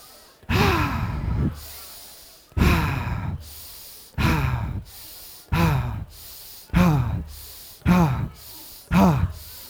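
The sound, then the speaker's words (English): Deep group breaths at a breathwork session: seven loud, breathy intakes and sighing releases arrive in a steady rhythm, each swelling and trailing off before the next, with no talk over them. “So I want you all to breathe with me. Breathe in.”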